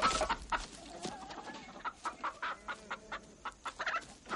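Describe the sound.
Chickens cluck in many short, irregular bursts, faint and without any talk. The rapid clucks cluster more densely toward the end.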